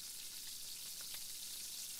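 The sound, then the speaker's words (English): Steak frying in a pan gives off a steady, bright sizzling hiss with a few small crackles popping through, continuous and even throughout, with no talk. “I'm cooking your steak just how you like it.”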